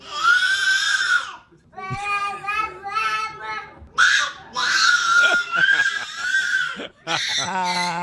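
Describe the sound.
A baby screams for fun rather than in a tantrum. Shrill, high-pitched shrieks come in several loud sustained bursts separated by brief pauses, each wavering in pitch.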